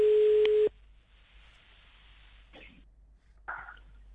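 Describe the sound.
A telephone ringback tone on an unanswered call: one steady mid-pitched beep of under a second, then quiet line hiss with a couple of faint, brief clicks.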